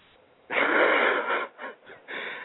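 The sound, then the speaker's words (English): A person snoring, with rasping, wheezy breaths: one long loud snore, then a few shorter, softer ones, and a final drawn-out rasp, set against near silence. “Are you snoring?”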